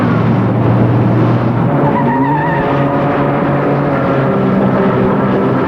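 A car drives off with a loud, continuous engine drone. Its tone climbs as it gathers speed.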